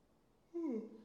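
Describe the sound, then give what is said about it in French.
A woman's single voiced yawn starts abruptly after silence and slides downward in pitch, fairly loud and heard alone. “Je suis désolée, mes gens, si je baille.”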